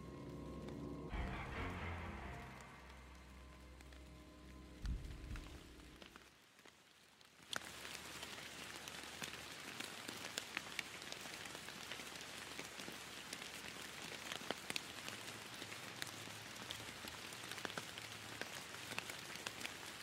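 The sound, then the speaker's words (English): Steady rain falls in a city, a dense, even hiss of drops with scattered sharper patters. It takes over after a few seconds of other tonal sound at the start and continues unbroken to the end. “clip, clop, clop of the rain.”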